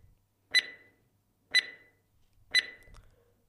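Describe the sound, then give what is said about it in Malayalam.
A quiz show timer runs out with three sharp electronic beeps spaced evenly about a second apart, each one short and bright against near silence. “Timer അവസാനം.”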